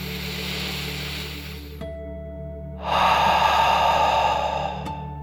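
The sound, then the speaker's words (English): A deep breath in and out during a children's bedtime relaxation exercise: a soft, airy inhale, a pause, then a longer and louder breathy exhale, with no talking. “let's take one more deep dragon breath, in and out.”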